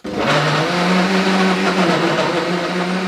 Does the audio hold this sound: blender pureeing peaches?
yes